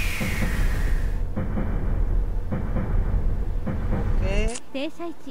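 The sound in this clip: A train running in a train simulator video game, heard as a loud, steady, rumbling drone with a rhythmic pattern that repeats, growing quieter in the last second.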